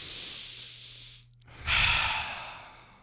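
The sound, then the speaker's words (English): Several people breathing out together in one long, loud, breathy exhale. The exhale swells after a brief quieter gap and then slowly fades, with no talking. “We're exhaling.”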